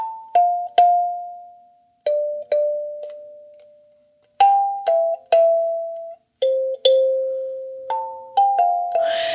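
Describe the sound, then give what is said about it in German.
A kalimba played with many plucked metal tines, giving soft, bell-like mid-pitched notes in an uneven, unhurried rhythm, each note ringing and decaying before the next, with short pauses between phrases. “Das, liebe Freunde der Einschlafmusikinstrumente, ist eine Kalimba.”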